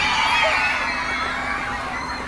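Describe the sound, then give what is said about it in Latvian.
Children squeal happily under a cooling shower from firefighters' hoses on a very hot day, a dense, steady wash of high-pitched shrieks and hiss that stays loud throughout. “Mēģinājuma dalībnieki to sagaida ar atzinīgiem spiedzieniem.”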